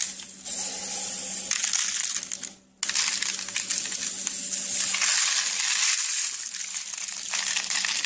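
Sprinkles pour out in a dense, steady rattling hiss that stops briefly partway through, then resumes and continues to the end.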